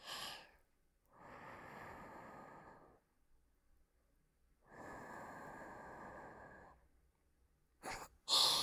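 Breath blown softly into an ear: two long, airy hisses of about two seconds each with quiet gaps between them, then a brief sharper puff near the end, all faint and close.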